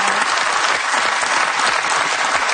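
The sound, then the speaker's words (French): An audience applauds loudly and steadily. Many hands clap in a thick, continuous wash that holds at full strength from start to finish, with no speech over it. “je sais qu'il y a des jeunes femmes qui vous regardent et qui vous applaudissent comme ça.”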